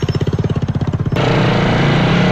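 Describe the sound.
A specially modified motorcycle taxi engine, used to reach a rural village along a dusty dry-season road, chugs in fast, loud, even pulses for about a second, then abruptly shifts into a continuous, harsh, loud roar.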